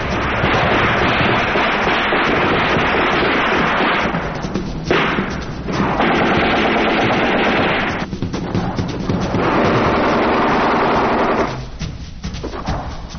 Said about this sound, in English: That's EOD setting off a couple of M79 duds,